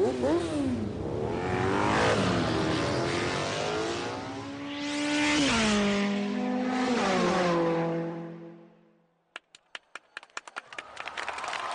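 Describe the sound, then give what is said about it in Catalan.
Racing motorcycle engines at a world championship rev hard and loud, their high whine sweeping up and down in pitch repeatedly for several seconds, then cutting off into a quick run of sharp clicks and ticks. “Així sona l'alta competició. Així sonen els carburants Repsol. No et perdis el recital dels pilots Repsol al Campionat del Món de Motociclisme.”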